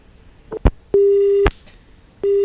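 A phone call cutting off on a line disturbed by rain: a few quick clicks, then a busy tone of steady single-pitch beeps about half a second long, separated by silence.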